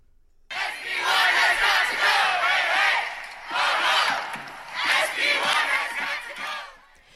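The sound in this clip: Students and faculty chant in protest against a controversial state higher education bill in Ohio. The crowd's voices rise in loud rhythmic surges, with three main waves separated by brief dips.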